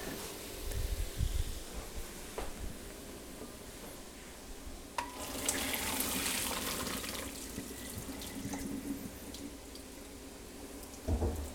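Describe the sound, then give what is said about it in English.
Water draining as cooked lentils are poured through a fine strainer: steady rushing, splashing flow with a few louder surges, and no talk. “Okay, while that's cooking, I need to drain my lentils, so let's do that before I forget.”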